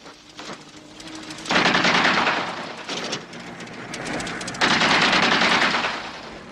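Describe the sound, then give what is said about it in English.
Gunfire rings out as warning shots, two long rapid bursts of automatic fire, loud and crackling, separated by a quieter stretch of scattered popping, with no voices. “What the hell is he doing? Maybe warning shots, sir.”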